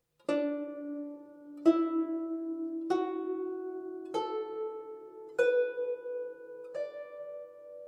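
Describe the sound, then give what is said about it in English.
Plucked notes on a 21-string zheng in the pentatonic D, E, F sharp, A, B tuning: six single notes stepping gradually upward, each with a bright attack and a ringing decay, played alone. “The most commonly used tuning on the Jung produces a scale of D, E, F sharp, A, B, which sounds like this.”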